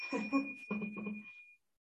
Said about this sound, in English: This is also my first time experimenting with using bells, so let's try this out.